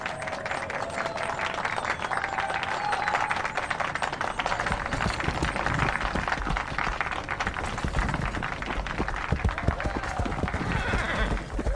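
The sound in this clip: Horses whinnying at an outdoor ceremony with farmers, ranchers and border patrol officers, where the horses are being given new homes. Their calls sit over a dense, unbroken clatter of hooves and clapping that holds steady throughout.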